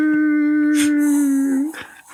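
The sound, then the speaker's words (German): A coyote howls in one long, steady tonal note that holds level for about a second and a half. It bends briefly upward and fades, with a few soft rustling bursts around it. “Und in der Ferne so ein Kojote.”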